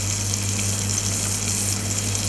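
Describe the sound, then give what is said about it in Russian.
Peppers, onion and garlic fry in heated vegetable oil in a pan, giving a steady, even sizzling hiss over a low hum and no talk. “Когда масло нагрелось, можно выкладывать на сковородку овощи. Начинаем с перца, затем присоединяем к нему нарезанный лук. И закладываем чесночок.”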